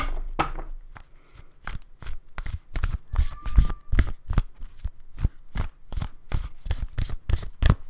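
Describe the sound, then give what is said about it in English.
A deck of cards is shuffled before a card is pulled: many crisp riffling bursts repeat in a steady rhythm, each a short papery flutter. “Now let's go ahead and pull some cards, or a card.”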